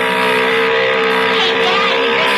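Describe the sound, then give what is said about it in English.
A motor runs steadily with an even, humming drone and a constant pitch, loud and unbroken from start to finish. “Yeah, motor sounds okay.”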